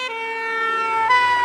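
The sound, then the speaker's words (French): A fire engine siren wails loudly and steadily on its own, a bright, harmonic-rich tone held through the whole moment with no voices. “Une voiture de pompiers s'approche de nous. Et sa sirène nous semble de plus en plus aiguë.”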